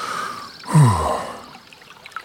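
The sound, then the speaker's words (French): A person catches their breath with one loud, voiced gasping sigh that falls in pitch, set against a quiet background. “Il reprend son souffle.”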